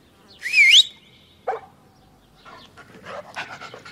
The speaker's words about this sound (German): Dafür aber ein Perro. Und was ist das? Ein Hund.